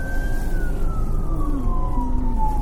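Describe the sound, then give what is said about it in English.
A county sheriff's police car siren sounds in a supermarket parking lot, one loud continuous wail that slowly falls in pitch over a steady low rumble. “It's a strange looking police car.”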